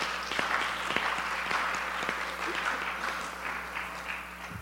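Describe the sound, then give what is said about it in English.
Church audience applauding, a sustained, even wash of many hands clapping that continues without a break. “Put your hands together for the Lord.”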